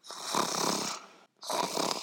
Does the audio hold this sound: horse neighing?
no

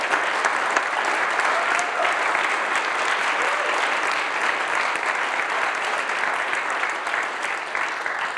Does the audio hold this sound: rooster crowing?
no

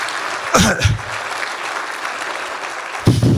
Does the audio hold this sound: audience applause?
yes

